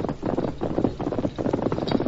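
Hooves of Silver, the horse ridden by the Lone Ranger, thud in a rapid, steady galloping rhythm, a muffled repeating patter that runs without a break.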